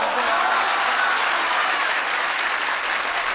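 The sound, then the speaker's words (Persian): A crowd at a religious gathering honoring Zahra claps together in a dense, loud, continuous burst of applause that holds steady from start to finish. “برای بی بی قشنگ دست بزن”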